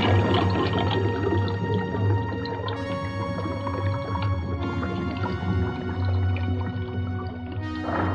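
Artificial amniotic liquid fills a transparent cabin with a loud, continuous gurgling, bubbling wash. A low droning hum and eerie, whale-like tonal sounds run through it, with no voices.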